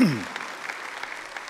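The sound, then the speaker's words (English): A church audience claps to welcome guests and members at a morning service. The brief burst of applause starts right after a voice and rattles on steadily for just over a second. “Let's put our hands together and welcome all of our folks into the house, guests and members alike.”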